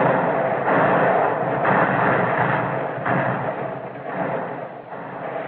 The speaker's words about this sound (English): What Japanese tactics can stand against this cannonading,